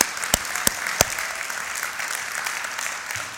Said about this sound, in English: And we want to recognize you with applause.